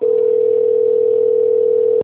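A telephone connecting tone sounds as a call is put through to an extension, one steady, loud mid-pitched hum held for about two seconds that cuts off abruptly.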